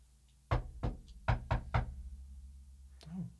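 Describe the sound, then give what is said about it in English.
Five firm knocks on a door in an uneven rhythm, with two spaced raps followed by a quicker cluster of three, then a brief softer sound after a pause. “Why don't you give us a really pleasant but firm knock?”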